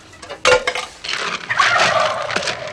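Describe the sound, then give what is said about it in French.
Stirring with a little oil added as a lubricant, heard as a short run of light clinks and scraping knocks, louder in a few bursts and otherwise fairly quiet. “Un petit peu d'huile, euh, en fait c'est le lubrifiant, c'est pour aider euh, à, glisser. Je remue.”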